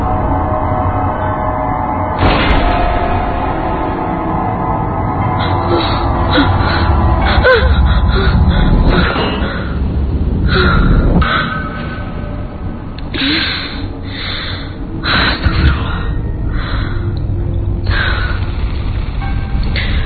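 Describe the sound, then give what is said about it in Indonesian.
Heavy gasping and panting breaths from someone waking out of a nightmare come in many loud bursts, a ragged breathing rhythm with no talk. “Aku terbangun dari mimpi burukku dengan terengah-engah.”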